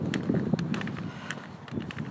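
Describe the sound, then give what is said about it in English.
Footsteps of someone walking past, a few soft, uneven steps over a steady low background hum. “Oh, someone just walked past me.”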